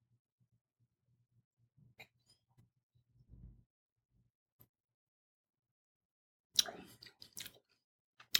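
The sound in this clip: Faint mouth sounds of someone sipping and tasting red wine: scattered soft clicks and small smacks, then a short cluster of slurping and swishing near the end, all quiet with no talk.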